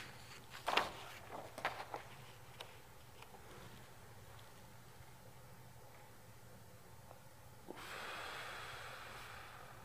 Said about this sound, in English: Deep breath.